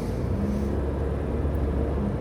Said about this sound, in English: As you can tell, I'm in my car. I just finished that workout at Stone Mountain, and I'm driving back home.